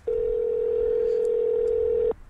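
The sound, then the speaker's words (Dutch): A steady telephone dial tone sounds while someone is being called: a single unbroken, even-pitched hum that holds for about two seconds on its own and then cuts off abruptly. “We gaan hem bellen.”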